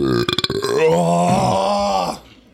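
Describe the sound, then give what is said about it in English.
A long, drawn-out burp after drinking seltzer, heard alone: a low, rough, voiced rumble with a choppy, pulsing start that holds steady for about two seconds before cutting off. “That was just one seltzer amount. Make the pre-burp.”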